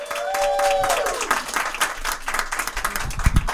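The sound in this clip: Audience applause at a stand-up comedy show welcoming a comedian to the stage: dense, steady clapping from a crowd that holds at an even, lively level for the whole stretch.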